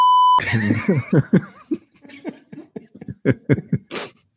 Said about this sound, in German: Ich sag's jetzt schon mal, ich piep es weg. Jedes Mal, also für die Hörer, ich bin für die Technik zuständig. Ich werde es wegpiepen,